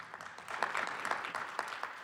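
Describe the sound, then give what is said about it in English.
Faint audience clapping, a dense, steady patter of many hands that stays low in volume throughout. “And then we have, yes, claps.”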